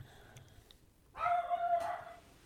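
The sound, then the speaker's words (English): A dog running across a living room lets out a single loud, drawn-out bark with a strong harmonic tone after a quiet stretch, then the sound fades back to low background noise. “That's my dog barking. Psychopath dog running across the living room.”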